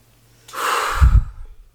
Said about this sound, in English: let's take a deep breath